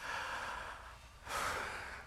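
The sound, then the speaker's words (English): A church audience taking a big deep breath together, heard as two airy, breathy swells: a long steady rush, a short dip, then a brighter, sharper surge that slowly fades. “Everybody take a big deep breath.”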